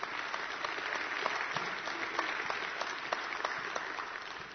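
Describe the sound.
Congregation applause in a church service celebrating a couple's new grandchild: steady, dense clapping that holds at an even, moderate level from start to end.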